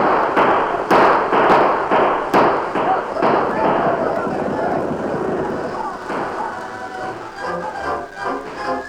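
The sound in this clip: Gunshots ring out during a cattle stampede: several sharp cracks in quick succession over the first few seconds, set against a continuous dense rumbling roar that carries on after the shots stop.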